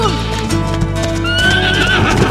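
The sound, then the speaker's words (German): Horses galloping along a beach, with steady, continuous hoofbeats and a loud whinny rising out of the sound toward the end. “Als Lucky mit Spirit am Strand entlang galoppiert, trifft sie auf Litz und ein anderes Mädchen. Die beiden sind auch auf ihren Pferden unterwegs.”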